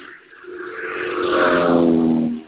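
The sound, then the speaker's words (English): A car speeds past along a road, its rushing engine and tyre noise swelling to a peak and then dropping away over a couple of seconds, alone and fairly loud. “So somebody just drove by real fast? Yeah, I'm up by the road.”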